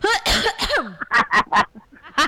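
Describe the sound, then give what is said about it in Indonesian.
Coughing from one person: many short, harsh, throaty bursts in quick, uneven succession, some voiced and rasping, loud throughout. “Langsung batuk aku kan.”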